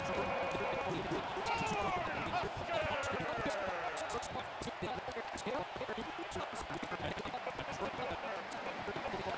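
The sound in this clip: Crowd booing as the Huskers basketball team emerges onto the court for a game against the Hoosiers: a dense, steady roar that never lets up, dotted with sharp thuds and thin rising tones.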